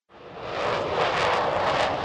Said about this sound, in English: Watching from a roof at Joint Base Elmendorf-Richardson, fighter planes take off one after another, arcing widely before disappearing in the distance. It's too loud to hear much